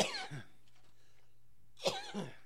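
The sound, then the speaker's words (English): A person sick with RSV coughs in two short, faint bursts separated by a quiet pause. “Can't shake the cough. That's the hardest part.”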